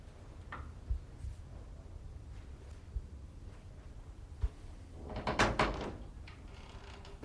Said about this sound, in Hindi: दरवाजा।